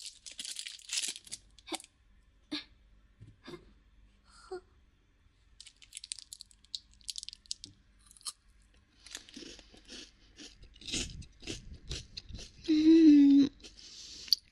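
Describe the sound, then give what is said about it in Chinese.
A chocolate bar is unwrapped and eaten: sharp tearing and crinkling of the wrapper come first, followed by scattered crunchy bites and quieter chewing spread across the rest of the stretch. “好吃，好满足，好喜欢吃巧克力棒呀！”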